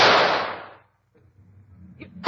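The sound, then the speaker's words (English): A single gunshot fired at an animal loose from its cage: a loud, broad crack that fades over nearly a second, then low rumbling and a brief sharp sound at the end. “Stand back, Watson. I'm going to shoot.”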